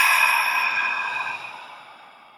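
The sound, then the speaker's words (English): A deep breath out through the mouth during a guided breathing exercise: one long, airy, breathy rush that starts strong and fades steadily over a couple of seconds, heard on its own. “Take a nice deep nasal breath in. And a nice mouth breath out.”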